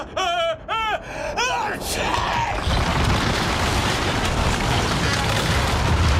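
A ship's mast snaps in two after being struck by a sneeze: a loud, sudden boom that swells into a sustained, rumbling crash, following a few brief voiced sounds.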